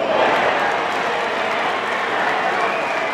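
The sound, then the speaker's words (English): Fans cheering at the Little League World Series baseball tournament in rural South Williamsport, Pennsylvania: a steady, loud crowd roar with blended voices and no clear break throughout. “Pretty much every year since 1947, fans gather in this rural Pennsylvania town for a ritual that sounds like this.”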